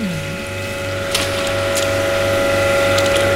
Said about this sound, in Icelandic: Það engin vanda að renna 10 tonnum á dag í gegnum svona vél.